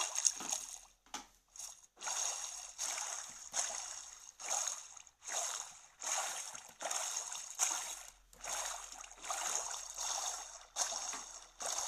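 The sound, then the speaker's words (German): Water splashes and sloshes in a video game as a character jumps out of a boat. Many short, fairly quiet bursts come in an irregular rhythm. “Ich bin einfach aus dem Boot gesprungen. Ich springe die ganze Zeit aus dem Boot, um Schrauben zu treffen.”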